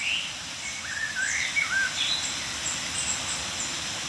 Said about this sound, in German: Kontaktrufe oder milde Aufregungsrufe einiger Meisen um uns herum.